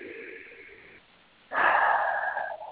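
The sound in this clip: A deep breath during a guided meditation, heard as two breathy phases separated by a short pause, the second louder and longer than the first.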